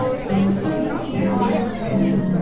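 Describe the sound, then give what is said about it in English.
Crowd chatter at the opening night of a senior art exhibition, a steady murmur of many overlapping voices with no single speaker standing out. “That's the sound of the crowd at the opening night of the exhibition.”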